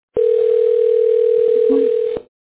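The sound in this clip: A telephone dial tone sounds as a call is being placed: one steady, continuous hum of even pitch and loudness, lasting about two seconds and heard alone.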